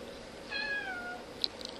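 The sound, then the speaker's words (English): A single clear meow from a pet cat, drawn out and sliding slightly downward in pitch, followed moments later by a short sharp click. “And there's my cat.”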